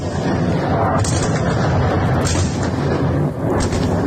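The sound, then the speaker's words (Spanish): Explosions during a massive Russian attack on Kyiv form a dense, continuous, loud rumbling roar, with a few sharper bursts standing out from the steady wall of noise. “Sonido de la ofensiva sobre Kiev, que las autoridades han definido como masiva.”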